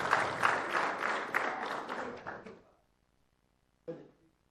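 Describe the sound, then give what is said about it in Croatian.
Applause at a civic awards ceremony in Bosanska Krupa: dense clapping for under three seconds that fades out, then a pause and a single brief thump. “Aplauz.”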